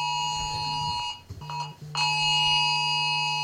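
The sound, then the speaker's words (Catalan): A Civil Protection alarm goes off, a loud, steady, high electronic tone rich in harmonics that cuts out and stutters briefly partway through, then resumes at full strength. “Ha saltat una alarma. És l'alarma aquella que deia. És l'alarma de Protecció Civil.”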